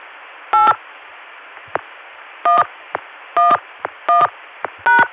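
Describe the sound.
Touch-tone dialing of a telephone number over a phone line: five short, steady dual-tone beeps at uneven intervals, with faint clicks between them over a low line hiss.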